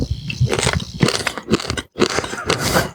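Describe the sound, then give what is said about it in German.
Wheat malt grains without husks are chewed, giving crunchy, irregular bites and crushing sounds mixed with a few low, voiced murmurs. “Weizenmalz. Das Besondere an Weizenmalz ist, es hat keine Spelzen. Das heißt, du kannst das im Grunde einfach so essen, ohne dass dir was im Mund zurückbleibt und darum hakt.”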